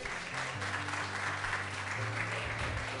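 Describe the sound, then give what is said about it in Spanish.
Applause fills a Sunday church service as the audience claps in a steady, even wash of many hands with no break. “Un aplauso por sincero, ¿ah?”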